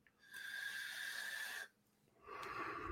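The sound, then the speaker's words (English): A person takes a long, airy inhale from a vape, a hissing pull lasting over a second. After a brief pause, another breathy draw begins. “Oh, I was like, you breathe. I was like, you good? I was hitting my vape.”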